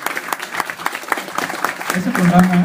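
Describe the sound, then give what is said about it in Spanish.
Audience applause at a live comics talk event, steady patter of clapping hands throughout, joined near the end by a speaking voice. “En serio, un fuerte aplauso para ti.”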